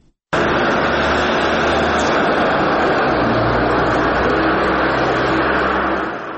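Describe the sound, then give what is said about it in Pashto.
A car engine roars loud and steady in a sandy desert district, a dense, continuous drone with a low hum beneath it that shifts slightly in pitch. It carries on with no break and no voices, easing off a little at the very end. “د الیاس تایی ریپورټ اورو چې د موټر په غږ پیلېږي”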